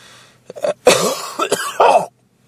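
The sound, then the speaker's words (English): Throat clearing: a few rough, raspy bursts, short catches followed by longer gravelly rasps, heard alone and fairly loud. “excuse me. A little junk in my throat.”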